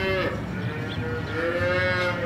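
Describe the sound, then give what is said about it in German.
Calves lowing in a large barn on a desert farm: drawn-out, harmonic moos rise over a dense, steady din of livestock noise with no talking. “In einem riesigen Stall werden gerade die Kälber versorgt.”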